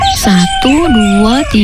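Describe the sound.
Chickens from a small domestic flock clucking and crowing, a few loud, drawn-out pitched cries with wavering and rising-falling contours packed into under two seconds.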